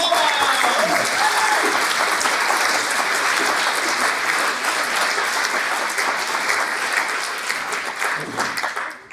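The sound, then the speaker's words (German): Audience applause for a performer walking onstage, dense, even clapping that holds steady for several seconds, then thins and fades near the end. “Applaus bitte”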